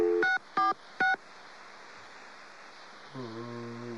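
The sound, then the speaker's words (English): Telephone keypad dialing tones: three short, evenly spaced touch-tone beeps, then a pause before a steadier, lower tone begins over faint background hiss. “What'd happen if you just dialed that? Let me check that out once.”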